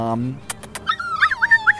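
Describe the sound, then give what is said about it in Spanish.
A small female dog whimpers and yips, giving a few short, high-pitched squeaky whines in quick succession after some brief clicks. “¡Ay, qué bonita perrita!”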